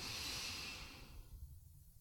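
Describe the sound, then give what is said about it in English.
A deep inhale during a relaxing breathing exercise, a soft, steady airy hiss that gradually fades after about a second, leaving only a faint low rumble. “Inhale again, filling up.”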